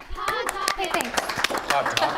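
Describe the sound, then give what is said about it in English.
Sharp hand claps ring out in an irregular series under steady talk, each one a bright, brief crack cutting through the voices. “Did the clapping cover it up?”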